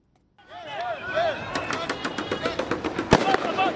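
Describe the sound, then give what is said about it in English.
Tear gas launchers fire outside Kenya's Electoral Commission in Nairobi as protesters retreat, with many sharp pops and one especially loud bang near the end. Shouting voices come first and continue underneath. “The sounds of police firing tear gas and protesters in retreat filled the air outside Kenya's Electoral Commission Tuesday”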